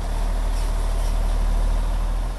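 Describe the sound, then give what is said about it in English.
A steady, loud rumbling roar as a 50-ton truck takes in a load of grain for cattle feed at a farm co-op in southwest Michigan, continuous and even throughout. “A 50-ton truck is taking in a load of grain that will go to feed cattle.”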